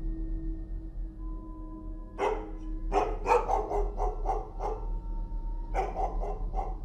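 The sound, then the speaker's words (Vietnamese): A house dog barks outside. Many sharp barks come in rapid bursts, some clustered tightly and others spaced out, over a steady low hum. “Đó là tiếng con chó nhà nó đang cắn lên nhấm nha nhấm nhặng.”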